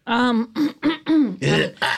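Throat clearing from phlegm: a series of six short, voiced harrumphs, each a throaty burst, with the last two rougher and noisier.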